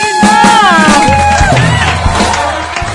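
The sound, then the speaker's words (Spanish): Loud crowd applause and cheering for a singer at a show in Quito, dense clapping mixed with whoops and shouts that holds steady throughout. “La verdad es que estos aplausos son para ti”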